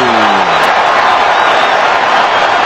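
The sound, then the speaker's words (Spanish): A stadium crowd in Atlanta roars continuously and loudly during a football match involving South Africa, a dense, unbroken wall of cheering voices. “Y la gente está con Sudáfrica, escuchen al público de Atlanta.”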